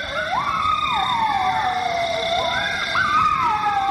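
Coyotes howling in Atlanta neighborhoods: high, wavering calls slide up and down in pitch and carry steadily through the whole stretch, with no talk and no pauses.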